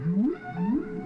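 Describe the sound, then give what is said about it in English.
Whale call from a whale in the Hudson River: two low, moaning upsweeps, each rising steadily in pitch, one after the other within about a second, loud and alone. “that is the sound of Henry the Hudson Whale”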